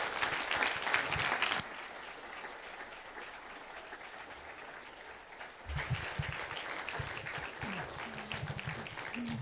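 A church audience stands and applauds a welcomed couple, Brother Harold and Lou Nichols, with steady, dense clapping that dips slightly and then swells again in the second half.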